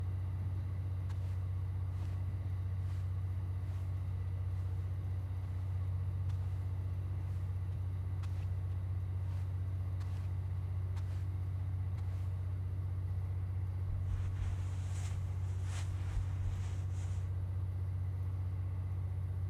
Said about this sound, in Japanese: 電気機関車、ラウンジですぐ近くで聞くと結構大きな音がしますね。